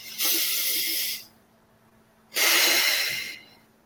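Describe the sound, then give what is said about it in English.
Deep meditative breathing: one strong inhale, about a second's hold, then one long, deep exhale. Both breaths are loud, airy hisses of similar length, with near silence between them and no talk. “And on the inhale, which is a deep inhale, we hold for just a second at the top, and then we exhale very deeply. So it looks something like this.”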